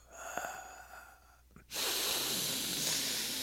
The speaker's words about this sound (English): Take a deep breath, everyone. Ready? Deep breath time. You know, before you take a deep breath, it's good to let out a lot of air, right?